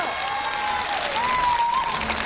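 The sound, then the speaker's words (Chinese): Applause from the audience at a stunt show, with continuous dense clapping throughout and a thin, sustained tone running faintly above it. “掌声。”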